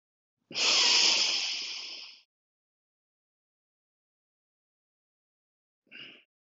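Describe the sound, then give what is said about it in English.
A deep exhale during a breathing exercise: one long, loud, breathy hiss lasting under two seconds that gradually fades. Silence follows, then a brief, softer breath sound at the end. “So then I exhale. Hold my breath at the bottom. Relax.”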